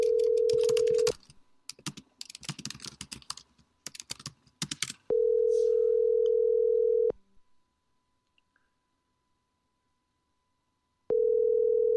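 Ringback tone of an outgoing call to a mobile phone: a steady, even tone in three bursts about two seconds long, with long silences between them. Brisk keyboard typing clatters between the first two bursts.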